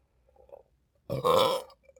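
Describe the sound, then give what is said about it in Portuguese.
One loud, rough burp lasts about half a second, with a faint short sound just before it. “Mas não antes sem dar um arroto.”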